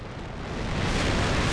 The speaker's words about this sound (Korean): 이륙. 한국형 발사체 누리호가 우주로 발사.